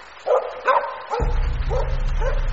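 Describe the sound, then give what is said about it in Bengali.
A dog barks from an upper floor of a house in a run of short, sharp, evenly spaced barks, with a low steady rumble coming in partway through. “হঠাৎ আমার মনে হলো আবার সেই কুকুরের ডাকটা শোনা যাচ্ছে,”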